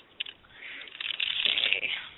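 Cards shuffled for a reading, a soft papery riffling rustle that builds over a couple of seconds, faint and muffled, with no talk over it.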